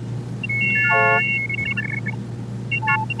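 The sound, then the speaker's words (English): An optophone reading machine from a 1971 recording turns printed letters into tones: short bursts of stacked, chord-like electronic beeps shift in pitch pattern as shapes are scanned, over a steady low hum. “using an optophone, a kind of scanner that would look at text and turn it into a series of tones representing the shapes of the letters”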